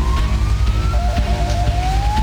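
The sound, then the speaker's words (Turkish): An ambulance siren wails through streets flooded by a heavy downpour as it responds to a driver stranded in floodwater. A single tone glides slowly upward, drops lower, then climbs again over a loud, steady low rumble. “Aracıyla birikintide mahsur kalan bir kişinin imdadına ambulans yetişti.”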